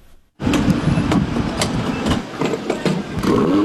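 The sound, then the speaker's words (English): A motor vehicle engine runs with a loud, steady, rough rumble that starts abruptly after a brief quiet moment and holds with small clattering pulses throughout. “that motor sounds like a gas guzzler right there”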